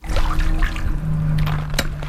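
Water sloshes and swishes as a net is dipped into a backyard swimming pool whose bottom is black with ash, a short run of splashing and pouring sounds.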